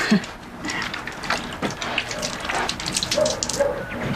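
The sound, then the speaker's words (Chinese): Water runs from a tap as hands are washed, a steady hiss and splash with small irregular spatters and clatter over a few seconds. “我们去洗手先，走。”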